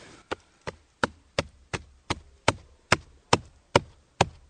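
Knocks on the hollow trunk of a dead beech tree: eleven sharp, resonant wooden raps at an even, unhurried pace, each with a short hollow ring.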